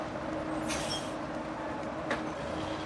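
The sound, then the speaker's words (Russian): A bus drawing to a stop on a small town street, heard as a quiet low rumble with a brief airy hiss early on and a faint click near the end. “Автобус останавливается на улице небольшого города.”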